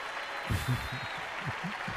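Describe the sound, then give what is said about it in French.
Recorded applause played as a sound to identify in a French radio quiz game, a steady, moderate wash of clapping with voices talking over it. “Des applaudissements. On doit reconnaître les applaudissements, là.”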